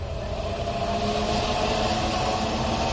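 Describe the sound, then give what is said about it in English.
A spaceship's sublight drive engine gives a steady, dense low rumbling drone with a faint sustained hum on top, holding an even loudness throughout with no breaks. “Bring us in closer. Aye, aye, sir. Moving us in on sublight drive.”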